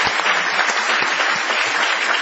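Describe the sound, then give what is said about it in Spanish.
Audience applause fills a small venue on a city street: dense, steady clapping at full loudness throughout, with no talk over it. “Aprovechemos el envión de esta ovación”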